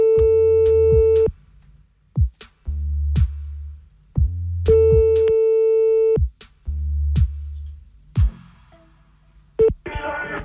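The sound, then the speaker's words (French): Ringback tone of an outgoing telephone call: a steady mid-pitched tone sounds twice, each about a second and a half long, separated by long pauses with low hum and clicks, then a short burst and crackle at the end. “On y va, c'est parti, on appelle le premier maintenant.”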